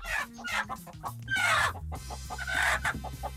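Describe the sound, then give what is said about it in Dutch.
A chicken clucking loudly on its own, with a string of throaty clucks broken by a couple of longer, drawn-out squawking calls. “u hoort de kip en denkt, is dit Corina Borst?”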